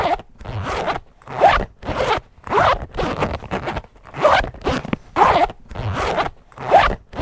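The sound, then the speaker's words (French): A pencil case zipper is pulled open and shut again and again in a nursery-school classroom, a scratchy, brisk rasp repeated as many short strokes with brief gaps, heard alone without voices. “Le bruit mystère, c'était la fermeture de la trousse.”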